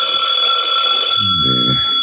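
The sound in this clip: A telephone ringing: a loud, piercing electronic ring sustained without a break across the whole moment, steady in pitch.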